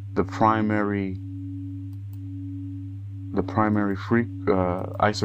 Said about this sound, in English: the primary tones, the musical tones, is 280 and 281, which between them, the difference is 1 hertz